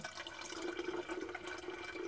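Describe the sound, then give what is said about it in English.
Water runs from a Berkey water filter in a steady, continuous stream, a soft even rush with a faint low hum underneath that holds unchanged throughout. “my Berkey, so bear with me, family. So you hear the noise. It's gonna stop in a few seconds. Give it a few seconds.”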